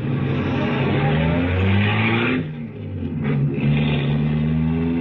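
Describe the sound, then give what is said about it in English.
A car being driven produces a steady, loud engine drone with layered low harmonics. The drone eases briefly midway, then picks up again and holds steady to the end. “Impressive machine, this. I love it, but I'm really not used to it yet. I just got it last week. You drive it very well.”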